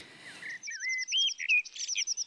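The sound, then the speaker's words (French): Garden birdsong from species such as robins, blue tits, chaffinches, blackbirds, wrens, garden warblers, song thrushes, dunnocks and jays: a rapid stream of high, clear chirps, trills and whistled notes, some repeated in quick runs, with no voices. “Et voilà, un petit florilège avec des rouges-gorges, mésanges bleus, pinsons des arbres, merle noire, troglodyte mignon, fauvette des jardins, grive musicienne, accenteur mouchet et jet des chênes.”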